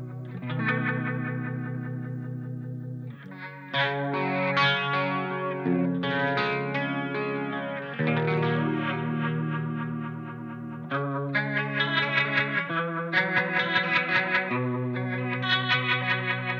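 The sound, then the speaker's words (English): Electric guitar through a handmade rotary-speaker effect pedal set to a classic 1960s tone: swirling, warbling chords held for several seconds, then a series of quicker picked lead notes, all sounded alone. “This final destination rotation demo tone is a classic 60s tone, great for chord work, individual lead lines, or a little bit of slide.”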